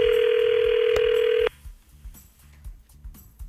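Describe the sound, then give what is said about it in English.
Telephone line tone while dialing a contest winner: a loud, steady tone holds for about a second and a half, then cuts off abruptly to quiet line noise with faint ticks. “dialing up the winner of all of the votes here.”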